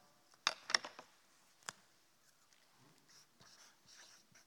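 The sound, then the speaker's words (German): Writing on a board with a marker: a few short, squeaky strokes near the start, then a single sharper stroke, followed by soft, faint scratching. “Ich schreibe mal keins rein.”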